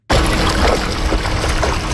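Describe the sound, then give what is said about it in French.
Water splashes and washes steadily as a fine net lifts young chinook salmon out of the Fraser River. A dense, continuous rush of water with no voices. “Des chercheurs utilisent un filet fin pour sortir de l'eau de jeunes saumons quina.”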